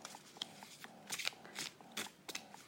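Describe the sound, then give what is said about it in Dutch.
Playing cards drawn and laid down close to a microphone, several faint, sharp papery snaps and soft rustles in irregular bursts, with no talking. “Oh, ik leg de kaarten nu trouwens wel heel dicht bij de microfoon, bedenk ik me nu.”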